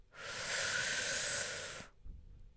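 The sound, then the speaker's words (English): A single long, deep breath: a soft, airy hiss swells and fades over nearly two seconds, followed by a faint low thump, with no talk. “let's take a nice big deep breath in”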